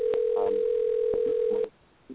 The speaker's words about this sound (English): I apologize for that ringing. I apologize for that ringing. Let me remove that.